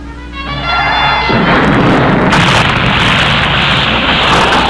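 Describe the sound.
An explosion sound effect in a film scene: a loud, low rumbling blast that swells from a quieter start into a sustained, roaring wash that stays heavy to the end.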